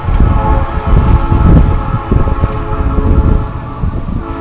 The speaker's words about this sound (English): okay, I had to stop. There was a train going by. I'm working in a park today.